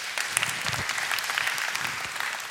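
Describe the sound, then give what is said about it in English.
Audience applause, a dense, even patter of many hands clapping that stays steady throughout, without cheering or voices. “since you got applause, I'll sort of agree with you.”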